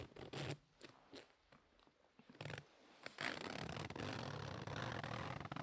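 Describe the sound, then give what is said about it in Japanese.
A zipper is pulled, giving a few short, faint rasping strokes with pauses between, then a longer sustained rasp that continues to the end. “なんかこう ベルトの音とセットになった感じが 好きです。 ファスナーの音は”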